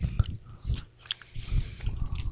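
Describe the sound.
Chewing on a chewy Thai candy resembling a Tootsie Roll, moist, squishy mouth sounds in irregular bursts with a brief pause in the middle, close and fairly soft.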